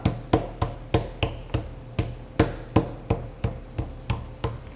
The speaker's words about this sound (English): once you pound it out, it really wants to kind of hang off, so sometimes I'll even trim that off. But I usually pound it first and then just see what it's looking like.